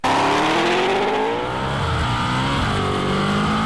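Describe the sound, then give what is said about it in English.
A Ford Mustang S650 with a dual-clutch transmission struggles to find a gear with traction control active. The engine drones loudly and steadily throughout, its pitch wavering and dipping slightly partway through. “This is such a good video to show you how much the DCT struggles.”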